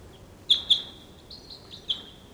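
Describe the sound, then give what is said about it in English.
Decoy birds call with wild birds around: two sharp, high chirps in quick succession, then fainter drawn-out calls and one more sharp chirp near the end. “There's some other wild birds around. Decoys calling.”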